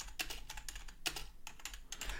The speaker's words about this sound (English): I can actually type a little bit.